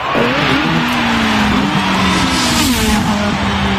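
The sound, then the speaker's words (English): Formula One race car driving: a loud, continuous high engine whine that wavers and shifts in pitch throughout. “In every Formula One race, there's a pit stop with a range of expert mechanics ready by the track to quickly detect any issues with the race car, fix them fast, and get them back into the race.”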